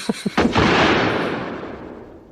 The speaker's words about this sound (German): Daneben geschossen, Mr. Bond.